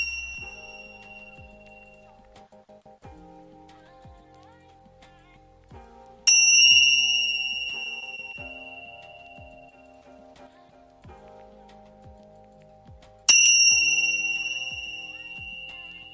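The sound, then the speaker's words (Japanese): Tingsha bells ring out in a few bright, piercing high-pitched chimes spaced several seconds apart. Each ring fades slowly over soft, low background music. “それでは、インシャベルを鳴らします。少しね、高い音が鳴りますので、3回鳴らします。”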